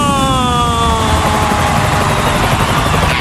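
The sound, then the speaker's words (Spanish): A Ryanair airliner lands with a loud, steady engine roar. A tonal whine slides slowly downward in pitch and runs continuously to the end. “El vuelo de Ryanair. 5, 4, 3, 2, 1. ¡Aterriza!”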